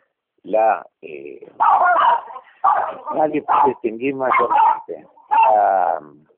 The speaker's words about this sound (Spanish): Ahí hay un perro que está en un estado insurreccional absoluto.